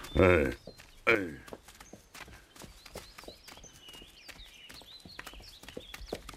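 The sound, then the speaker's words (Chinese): Horse hooves clip-clop on a mountain path as the horse is led uphill, a long run of fairly even, soft steps. People talk briefly and loudly at the start. “走， 牵上马，我们上山。”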